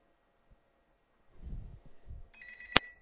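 A telephone rings with an incoming call: one short, bright electronic ring sounds near the end, after a stretch of soft low rumbling and handling noise.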